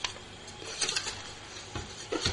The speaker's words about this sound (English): And we've got a draw, so I'll grab the box, give it a stir.